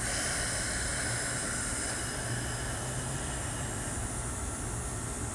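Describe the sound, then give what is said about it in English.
A deep breath is drawn in through the nose and slowly released during a calming breathing exercise. It is heard as a long, continuous breathy hiss with no voices. “take a deep breath in your nose for like a count of four. And release for like a count of six.”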